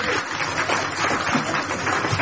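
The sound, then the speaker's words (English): Audience round of applause, a continuous, fairly soft patter of many hands clapping that runs steadily without a pause. “You shoot Michael Winner, you get a round of applause.”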